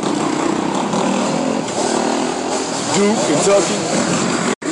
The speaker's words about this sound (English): Yeah, you're hearing the bikes. This is Philly, baby.